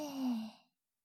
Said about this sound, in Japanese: 吸って、吐いて、吸って、